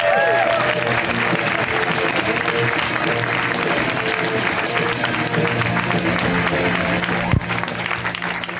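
A comedy club audience applauds a comic with dense, sustained clapping and crowd noise that stays loud throughout, with one sharp accent near the end.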